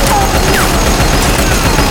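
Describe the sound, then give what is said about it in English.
Gatling gun firing, a loud, dense barrage of rapid gunfire that roars on without a break, with a few thin whistling streaks through it. “Yee-haw! They got a Gatling gun in there!”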